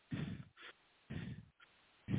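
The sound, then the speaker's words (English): Deliberately noisy breathing by a person exaggerating their breath pattern: a few loud, airy breaths in a steady rhythm, each long rush of air followed by a brief softer one, separated by short pauses. “I'm just breathing like in a noisy way for you to hear the pattern”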